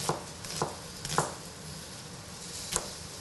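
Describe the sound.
A knife slices a vegetable into half rounds for a red pepper and tofu stir fry, giving a few faint, sharp cutting strokes spaced unevenly apart, with quiet gaps between them.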